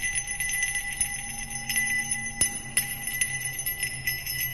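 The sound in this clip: Faint bells jingle from a procession of people in strange costumes. Light tinkling strikes repeat unevenly over a steady ringing tone, with a couple of sharper hits standing out midway.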